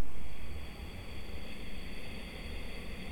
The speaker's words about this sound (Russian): Выдох, правая. Теперь вдох через правую сторону.